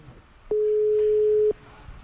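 A telephone call gives a busy signal: one steady, low-pitched tone lasting about a second over faint background noise.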